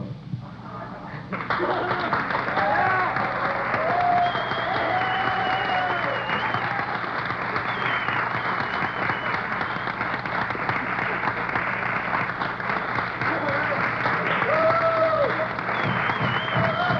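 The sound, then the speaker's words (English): Sustained audience applause, a dense, even wash of clapping that rises sharply after a quieter opening and holds steady for a long stretch, with a voice talking over it. “Not enough”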